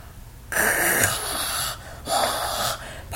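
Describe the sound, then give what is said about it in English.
Excited mouth breathing from a person: two long, loud, breathy rushes of air with a raspy, wheezy edge, separated by a short pause, with no talking. “Pardon me as I mouth breathe in excitement.”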